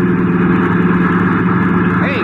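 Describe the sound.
Steady engine drone of a car driving on a highway alongside a bus, a loud, continuous low hum with layered harmonics that holds even from start to finish.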